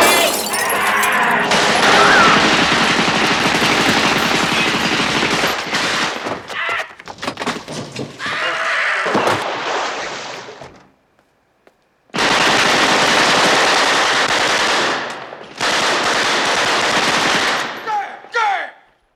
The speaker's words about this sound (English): machine gun ridden death, just riddled with bullets